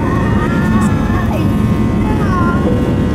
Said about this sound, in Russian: Начинаем взлет